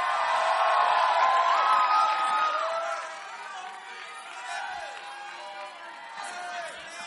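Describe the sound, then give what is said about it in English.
Church audience cheering and whooping before a testimony, loud for the first few seconds, then easing to a lower, uneven murmur of voices. “Put your hands together for a powerful testimony.”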